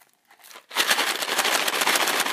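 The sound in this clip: A box of M&M's candy shaken: a brief, faint rattle, then a dense, loud, continuous rattling of the candies inside the box that lasts to the end, with no talking.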